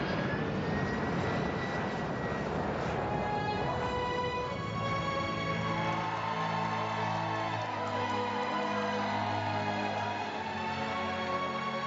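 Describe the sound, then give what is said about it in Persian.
An airplane on its first test flight, its engine giving a steady, sustained drone with a tonal hum running through it, continuous and even from start to finish. “به عنوان پرواز اول اشکالات خیلی کمی داشته. خیلی عالی پرواز میکنه.”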